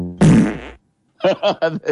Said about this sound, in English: Dog fart.